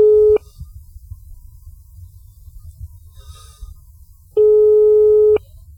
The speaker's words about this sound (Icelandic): en síminn farinn að hringja